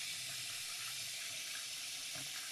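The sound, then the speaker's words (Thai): Tap water runs steadily into a sink to wash Japanese rice, a continuous broad hiss of flowing water with no voices. “มาดูกระบวนการในการล้างข้าวเลยนะเดี๋ยวจะเปิดน้ำแรกนะเดี๋ยวจะให้ดูความแตกต่างเลยค่ะ”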